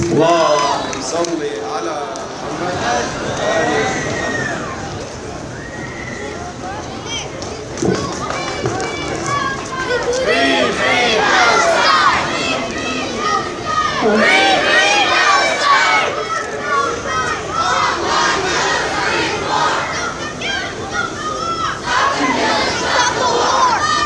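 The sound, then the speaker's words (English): Crowd at a religious gathering reciting the salawat together to welcome a speaker to the podium, a loud, sustained wash of many voices that swells and rises in waves throughout. “Please welcome her to the podium with the salawat.”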